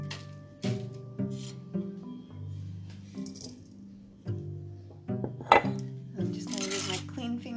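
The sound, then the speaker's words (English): Ingredients being put into the bottom of a baking pan, with a few sharp clinks and knocks of dishes and utensils and some soft scraping, while a person talks over it. “So I'll put 3 cups into the bottom of this pan.”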